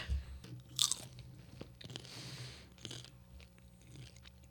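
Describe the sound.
Faint crunching and chewing of cheddar popcorn eaten alongside white wine, with a few soft bites and crackles over quiet background hiss.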